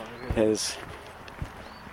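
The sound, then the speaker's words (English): Footsteps of someone walking outdoors, a few soft, widely spaced thuds, with a short burst of a person's voice near the start. “here's me walking. More walking.”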